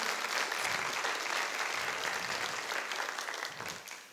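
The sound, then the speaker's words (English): A church audience claps for visitors in a faint, even wash of applause that thins out toward the end. “Can we give our visitors a big hand this morning?”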